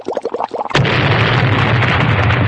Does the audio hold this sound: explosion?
yes